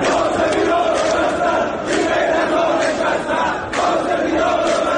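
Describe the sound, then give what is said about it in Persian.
Protesters chant anti-government slogans in Tehran, where people and bazaar shopkeepers rally over soaring currency rates. A loud crowd of voices holds steady, with chanted bursts swelling at irregular intervals throughout. “ویدیوهای منتشر شده در شبکه‌های اجتماعی از گسترده‌تر شدن اعتراضات و شنیده شدن شعارهای ضد حکومتی”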